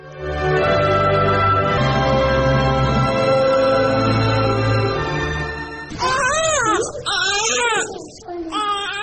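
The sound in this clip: A baby cries for milk in a dramatized scene, with wailing, wavering cries in the final few seconds that follow a long, steady droning tone.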